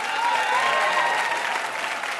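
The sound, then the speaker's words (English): A game show studio audience applauds two contestants with a steady, dense round of clapping. The applause stays even and continuous throughout. “Huge round of applause for these two contestants.”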